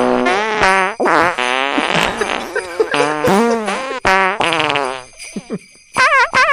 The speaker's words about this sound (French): Mais pas les animaux, là, les pets anglais. Les pets, ouais. Les vrais pets.